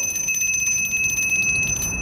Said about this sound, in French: Maudite clochette.